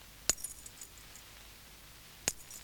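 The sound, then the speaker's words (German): A bunch of keys, held by the ring and struck with a pencil, gives two bright metallic clinks about two seconds apart. Each hit has a sharp attack and a short, high, jingling ring, with faint rattles between them. “Man hält das Schlüsselbund einfach am Ring fest oder am Anhänger und schlägt mit einem Bleistift dagegen.”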